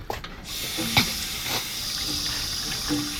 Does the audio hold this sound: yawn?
no

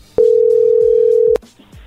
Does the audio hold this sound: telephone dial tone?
yes

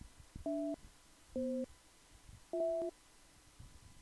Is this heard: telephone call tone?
yes

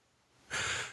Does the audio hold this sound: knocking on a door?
no

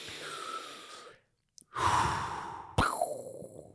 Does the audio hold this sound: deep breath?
yes

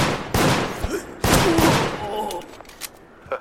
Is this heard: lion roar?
no

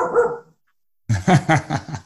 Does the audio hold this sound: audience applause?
no

